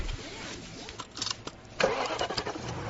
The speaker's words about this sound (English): I am test driving a BMW 3 Series today after driving its top rivals.